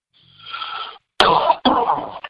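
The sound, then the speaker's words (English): A few harsh, raspy coughs from someone with a small, lingering cough, coming in short bursts after a softer breathy lead-in, loud and alone with no talk. “I got some kind of little cough. Probably that's breathing that Saharan dust all week.”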